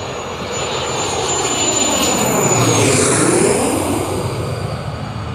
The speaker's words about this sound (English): And just like that, in 13 seconds, we have touchdown in the South Pacific.